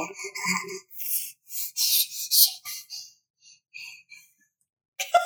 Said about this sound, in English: He's just kind of heavy breathing into the mic now.